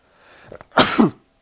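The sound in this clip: A sports commentator sneezes once during a basketball results rundown: a short, breathy intake, then one loud, sharp explosive burst that quickly dies away.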